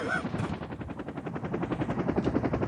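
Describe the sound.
Rhythmic, rotor-like thumping of an aircraft taking off in the morning from an airfield in central Israel, bound for the south. Fast, even pulses stay loud and continuous throughout.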